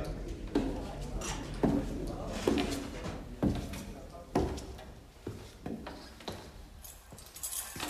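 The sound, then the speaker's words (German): A flimsy door lock is worked open with metallic rattles and jangles, and a series of sharp clicks and knocks lands at irregular intervals over several seconds. “Das Schloss in Badous Tür verdiente kaum diese Bezeichnung.”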